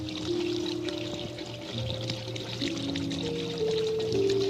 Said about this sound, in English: Get my hands washed before I go off to work.